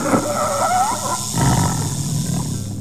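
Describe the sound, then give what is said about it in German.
A leopard fighting a snake gives loud wild animal cries: squealing, tonal calls in the first second, then a rough, noisy, growl-like struggle that continues steadily to the end. “Als Zubu die Augen wieder öffnete, sah er den Leoparden mit der Schlange ringen.”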